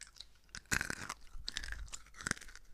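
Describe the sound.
Crunchy chewing of chocolate balls: irregular bites and crunches with soft mouth sounds in between. The chewing is quiet and no one speaks.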